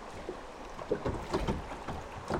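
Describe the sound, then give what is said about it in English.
Water moves gently on the Pine River, a narrow, winding northern Michigan river used by kayakers and canoers, on a quiet summer afternoon. Soft, steady water noise carries a few light splashes and some wind rumble. “On a typical quiet summertime afternoon, the Pine River sounds like this.”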